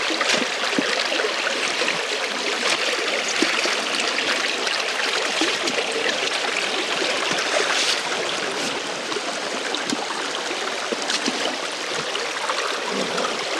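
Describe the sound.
A small, shallow stream flows with a steady rushing trickle, even and moderately loud throughout with no pauses and no voices.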